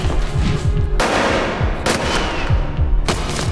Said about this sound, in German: Einer der Schüsse war neben mir in die Bank eingeschlagen.